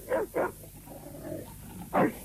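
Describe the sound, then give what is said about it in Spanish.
A white dog trained to attack barks three times: two loud, gruff barks in quick succession, a pause, then a third. Each bark is low to mid in pitch. No voices are heard. “Este no es un perro de ataque. Es un perro blanco.”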